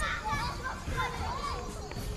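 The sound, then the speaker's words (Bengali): Children running and playing in a local park in the afternoon, heard as a steady, busy babble of high young voices and calls that keeps an even loudness from start to end. “অনেকগুলো ছোট ছোট বাচ্চা চারিদিকে দৌড়ে খেলাধুলো করছে।”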